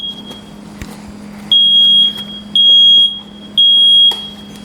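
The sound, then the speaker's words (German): A household smoke detector sounds three loud, piercing high-pitched beeps, each about a second long and evenly spaced, after a quieter stretch of faint tone and clicks. “Genau, das ist der Rauchmelder. Ihr hört, wie laut der ist.”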